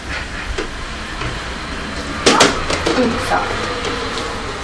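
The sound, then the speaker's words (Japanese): A Shinkansen bullet train passing: a steady, broad rushing roar with a few sharp clicks and rattles mixed in, while a voice talks over it. “おお、新幹線。あ、スーパー北海道かっこいいな。”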